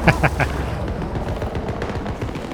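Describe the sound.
Gunfire from the hip in a shooter video game: three quick, loud shots at the start, followed by a rumbling, booming background.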